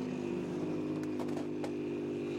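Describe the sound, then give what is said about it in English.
The number 60 race car coming into the pits for a driver change and four new tyres during an endurance race, a steady, low engine drone with a few sharp clicks and clatters over it. “Here, though, right on schedule, is the number 60 car.”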